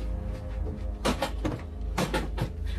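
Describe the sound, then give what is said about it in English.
A storage chest in a panic room is thrown open, its contents a fire blanket and provisions, giving a few dull thumps and knocks over a steady low rumble. “Sarah throws open a chest. Inside is a fire blanket and various provisions. She opens another one.”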